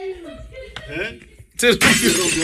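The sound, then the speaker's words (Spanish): A chair breaking makes a sudden loud crack and crash, with a noisy clatter that lasts under a second, following voices talking. “Se rompió la silla.”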